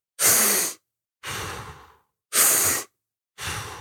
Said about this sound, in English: So the breathing is like, I'll show you. I won't be too loud, but it's the process of hyperoxygenating your body.